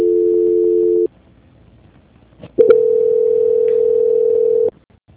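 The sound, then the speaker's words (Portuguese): A telephone line tone sounds during a call transfer: a short steady hum, a pause broken by a couple of clicks, then a longer steady tone of slightly different pitch that cuts off near the end. “Transferência.”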